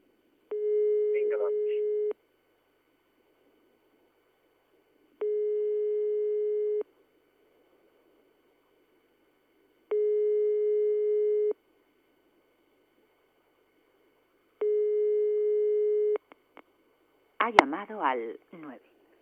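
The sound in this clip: A telephone line tone: four long, steady, low beeps with silent gaps of a few seconds between them, followed by a brief voice at the end.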